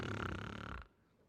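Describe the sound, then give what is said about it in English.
A voice imitates a single loud, rasping snore that lasts under a second and then cuts off into quiet. “even when you're snoring,”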